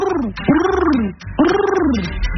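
A person imitates a pigeon cooing, producing two drawn-out, warbling coos that arch up and then down in pitch, separated by a brief pause.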